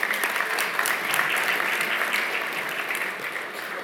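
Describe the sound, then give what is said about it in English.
A church audience gives a brief round of applause after worship singing, many hands clapping in a busy, even patter that holds fairly steady and eases off slightly toward the end. “Yeah, we could do a little clap. That'd be nice.”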